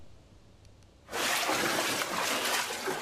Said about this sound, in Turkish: Meteorolojinin sarı kodla uyardığı Samsun'da şiddetli yağmur etkiliydi. Çarşamba ilçesinde evler ve tarım arazilerini su bastı.